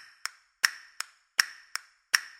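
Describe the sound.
Hand claps in simple time, called Tempus Imperfectum: six crisp claps at a steady pace, alternating in strong-weak pairs.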